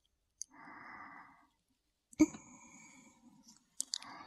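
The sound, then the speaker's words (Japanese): Cotton swab cleaning an ear: faint, soft scratchy rubbing in two stretches separated by a pause, with a few crisp clicks at the start and end. “それでは、早速綿棒でお掃除させていただきます。”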